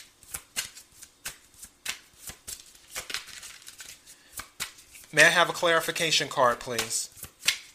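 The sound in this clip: Tarot cards are shuffled for a clarification card: many quick, crisp riffles and taps in an uneven rhythm, with a voice speaking briefly partway through.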